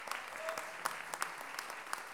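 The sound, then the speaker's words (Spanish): Faint audience applause for a young female singer and décima poet at a feminist poetry gathering, a soft spread of scattered claps with a few slightly sharper hits. “Maga Dalia, un aplauso para la Maga.”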